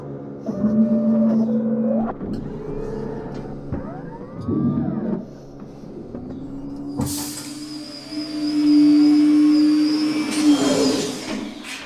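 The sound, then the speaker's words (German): Mechanical whirring and servo whines from robotic arms opening a pressure suit after the water drains away; motor tones shift and glide, with clanks, and a broad hiss joins the whine in the second half. “Das Wasser ist weg. Mein Anzug wird jetzt geöffnet.”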